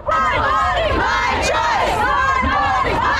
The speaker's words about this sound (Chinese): 这个裁决震惊美国，在全美各地爆发抗议示威，但是也有民众欢欣喝彩。